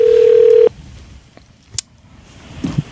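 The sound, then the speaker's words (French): A telephone ring tone sounds on an outgoing call: one steady, loud electronic burst of about two-thirds of a second. The line then goes quiet apart from a few faint clicks. “Ça sonne.”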